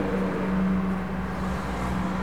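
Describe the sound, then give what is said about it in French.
Inside a moving car, a steady low engine and road hum drones continuously with no talk and no sharp events. “Effectivement, on est dans ma voiture.”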